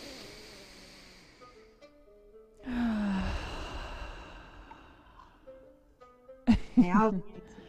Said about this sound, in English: inhale through the nose. Shoulders up. Exhale through the mouth.